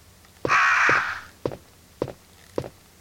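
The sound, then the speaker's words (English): Crows caw in a survival horror video game: a single loud, harsh, raspy caw, followed by five dull thuds at an even pace. “Oh man, those are some magnificent looking crows.”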